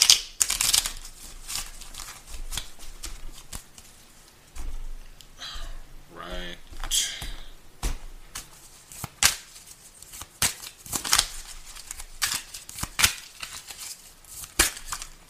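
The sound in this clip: Tarot cards being shuffled by hand: many crisp riffling and flicking bursts in quick, uneven runs through the whole clip, with a brief voice sounding near the middle.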